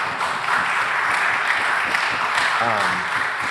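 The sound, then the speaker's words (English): Applause from a church audience during a service, a steady wash of many hands clapping that holds at an even, fairly loud level throughout, with a brief voice rising over it near the end. “So if we could just give her a round of applause for all the amazing years.”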